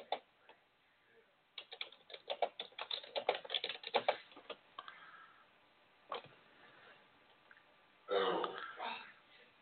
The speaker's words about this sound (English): Let me type one more time, otherwise.